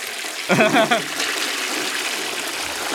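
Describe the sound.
A toilet flush sound effect: a sudden rushing, gurgling surge of water with voices briefly over it, then a steady watery hiss that carries on to the end.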